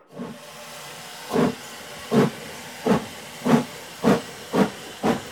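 A steam train at a station platform gives a steady hiss, broken by seven heavy exhaust chuffs that come slowly at first and then gradually quicken.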